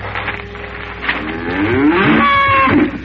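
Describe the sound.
A calf moos in one long, drawn-out bellow that grows louder and fuller through the second half, over a low steady hum.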